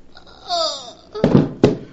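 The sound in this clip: A gunshot in a radio drama as a man shoots a woman who is trying to leave him: a woman's brief cry, then two sharp, loud bangs in quick succession.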